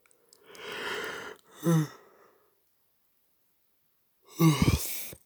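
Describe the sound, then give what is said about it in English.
A person yawns: a long breathy exhale that shades into a short voiced groan, then after a pause another brief, louder voiced breath. “sorry for yawning.”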